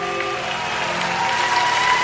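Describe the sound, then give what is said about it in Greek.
Applause from a crowd, dense and steady clapping that holds at an even loudness throughout. “Πάμε χειροκρότημα.”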